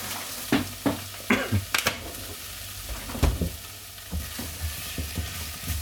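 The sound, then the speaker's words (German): Pumpkin and tomato paste sizzle as they roast in a pan, with a steady frying hiss broken by a few sharp scraping stirs and utensil clatters. “So, noch ein bisschen anrösten.”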